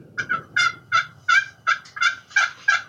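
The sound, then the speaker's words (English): Soft, raspy yelps from a hunter's turkey call imitate hen turkeys walking away. The call is played light and low as a steady, evenly spaced series of many short notes, with no voices. “Now I'm just going to make a call like they're walking away. Because when they come down, I want them to think that they're walking away. I want them to get anxious to come down and look for those hens. So now I'm just doing a really light call.”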